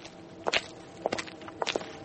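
Footsteps walking, a few steady treads landing in small uneven clusters, each step a soft scuffing thud that stands alone without speech.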